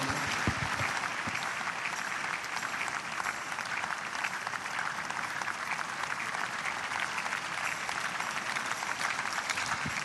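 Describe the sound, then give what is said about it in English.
Church audience applauding in praise during a service: dense, continuous clapping from many hands, steady and unbroken from start to finish. “Church, let's give the Lord a big hand of praise”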